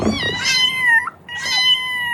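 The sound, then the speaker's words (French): A frightened cat stuck at the top of a tree near Rouen gives two long, high-pitched meows with a short pause between them, each cry bending downward as it trails off. “Petit miaulement de peur, faut dire, Titi, ce chat était coincé tout en haut d'un arbre depuis samedi soir au Houlme, près de Rouen.”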